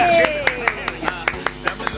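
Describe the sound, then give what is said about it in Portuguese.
Hands clap in an even, quick rhythm for a four-year-old's birthday, about nine sharp claps under a sustained singing voice. “Palmas para o aniversariante.”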